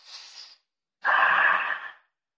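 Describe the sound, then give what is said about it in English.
Deep breath drawn in, heard as a short, soft, airy breath followed after a pause by a longer, louder rushing breath lasting about a second. “so let's just take a deep breath.”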